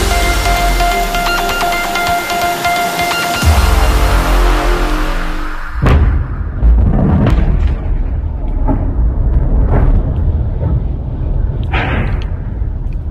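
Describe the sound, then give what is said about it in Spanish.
Explosions from American and Israeli air strikes over Tehran boom out in a series of a few heavy, sharp blasts, each followed by deep rumbling, spaced irregularly over a continuous loud background noise. “Este es el sonido de las explosiones sobre Teherán, de los ataques americanos e israelíes sobre Irán.”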